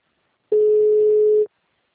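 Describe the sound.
Telephone ringback tone while a call is placed: a single steady, loud, mid-pitched beep lasting about one second, alone with silence on either side.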